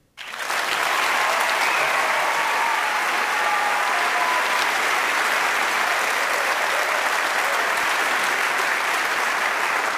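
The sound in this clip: An audience applauds to welcome a 17-year-old violinist onto the stage, the clapping starting abruptly and holding as a dense, steady roar of many hands for the full length.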